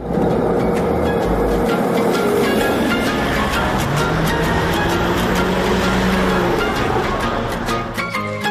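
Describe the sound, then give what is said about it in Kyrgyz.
Inside a moving marshrutka minibus, a steady, loud rumble of engine and road noise carries on throughout, scattered with many rattling clicks. “Эмне менен барасыз? Маршрутка. Маршрутка менен. Кеттик жүрүңүз.”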